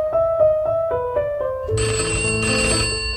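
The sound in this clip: A telephone rings after a call is placed, first as a rapid, repeating electronic ring pattern, then shifting partway through to a brighter, fuller chime.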